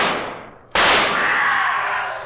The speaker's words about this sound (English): Quick, fire your pistol.